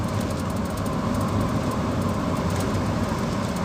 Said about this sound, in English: So here comes a big truck